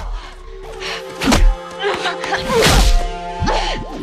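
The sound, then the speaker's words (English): Heavy thudding kicks land during a fight in the mud, a few dull, punchy impacts clustered in two bursts, with a steady tonal background beneath them. “She kicks the ninja in the stomach and the face.”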